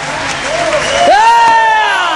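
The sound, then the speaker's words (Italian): Audience applause and cheering salute a musician at an evening event in Verona. A bed of clapping runs throughout, with a loud rising whoop near the middle. “Oh ragazzi, un applausone, eh?”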